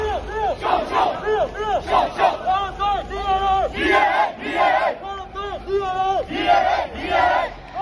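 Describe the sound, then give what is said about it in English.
Protesters on a street in Myanmar chant a slogan, a loud crowd of voices shouting short phrases together in a steady, repeating rhythm of bursts and brief pauses. “Those are people in Myanmar on the street today.”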